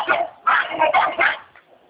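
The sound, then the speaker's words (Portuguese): Small pet dog barking in a few quick, high-pitched yips and barks, loud and alone, ending with a fainter final yap. “Ah, meu cachorrinho aqui, pelo amor de Deus.”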